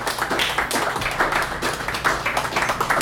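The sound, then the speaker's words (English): An audience applauds a poet at a poetry reading with dense, steady clapping that stays loud and even from start to finish. “And as we give Sonali another hand”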